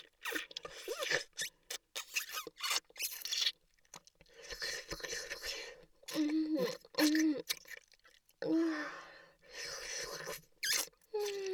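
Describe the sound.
Wet sucking and smacking mouth sounds, as if trying to draw milk: many irregular moist bursts broken by brief pauses, with a soft voice murmuring in places.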